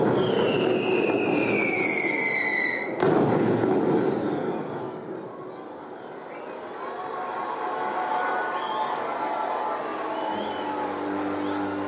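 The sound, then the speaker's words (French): Fireworks explode: high whistling tones lead into a sharp, loud crackling burst, which trails off into a lower, fading rumble. “Qui explose et qui meurt, déjà? Feu d'artifice.”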